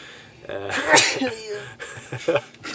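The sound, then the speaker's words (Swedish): A single loud sneeze bursts out sharply, with quieter breathy vocal sounds around it. “låt jag börja nysa här.”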